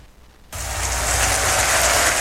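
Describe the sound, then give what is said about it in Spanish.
Dense applause from a worship audience begins abruptly after half a second of near silence, then holds as a loud, steady wash of clapping until the end. “Te aplaudimos a ti, Jesús”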